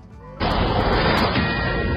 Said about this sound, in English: Fox News Alert, all right? You got the swooshy thing with the ding. And you say it's a Fox News alert.